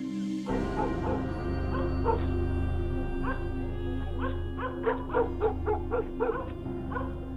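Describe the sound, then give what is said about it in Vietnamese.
Dogs from several houses bark in the night, giving short yelping barks mixed with whimpering tones. The barks cluster toward the end over a steady low hum. “Văng vẳng trong đêm, Long nghe tiếng chó của mấy nhà từ trên đường cắn rỗng xuống dưới suối.”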